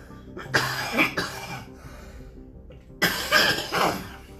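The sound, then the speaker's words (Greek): A man coughs hard after choking while imitating a woman's grating voice. A few rough, loud coughs come in two clusters, split by a short quiet gap, with no speech. “χίλια συγγνώμη, αλλά για να κάνουν τη φωνή της πνίγηκα ο ίδιος.”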